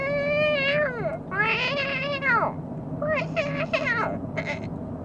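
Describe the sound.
A human voice imitates a real cat meowing: two long, drawn-out meows whose pitch drops at the end, then a few shorter meows. All are loud and vocal throughout.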